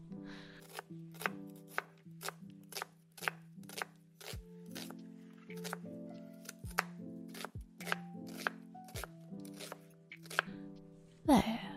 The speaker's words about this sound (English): Okay, let's chop these in half.